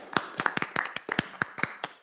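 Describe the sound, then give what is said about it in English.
Scattered hand clapping from a small group honouring a finance team after an award: about ten sharp, separate claps with uneven gaps, alone without voices. “They deserve a round of applause.”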